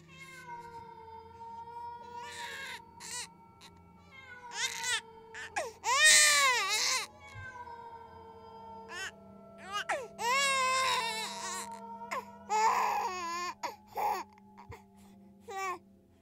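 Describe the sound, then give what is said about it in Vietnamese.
A child crying rises from a ravine amid wind: many wavering, high-pitched wails with bending, catlike pitch, loud bursts separated by short pauses over a steady low hum. “văng vẳng từ dưới vực vọng lên, lẫn trong tiếng gió, tôi có thể nghe rõ tiếng trẻ con khóc”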